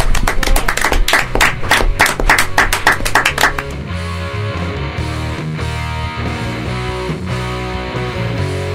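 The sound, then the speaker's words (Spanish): Audience applause for performers: dense, loud clapping for about three and a half seconds, then giving way to music with sustained tones that carries on to the end. “Un aplauso entonces para ustedes”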